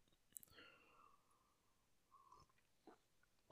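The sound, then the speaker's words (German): A faint sip of hot coffee, drawn in as a soft slurp with a few quiet mouth clicks and smacks, low in level with no talking. “So, ich nehme mal einen Schluck Kaffee.”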